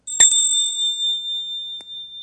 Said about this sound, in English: nice little pitch, rings about 5-6 seconds. We, Orthodox, use bells in worship.